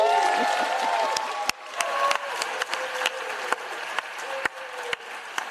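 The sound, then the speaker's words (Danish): Applause and cheering in the US Senate chamber after a bill passes on the vice president's tie-breaking vote; loud clapping with voices at first, easing off as a few sharp knocks punch through. “vi spiller klapsalverne lang tid”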